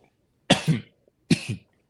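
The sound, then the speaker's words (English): Two choking coughs about three quarters of a second apart, each a harsh double burst, loud against near silence. “I'm choking to death.”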